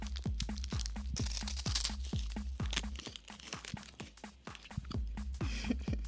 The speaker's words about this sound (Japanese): めっちゃパサパサ言ってんですけど口の中が